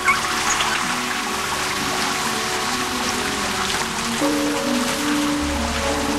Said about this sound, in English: Later, he's in the shower.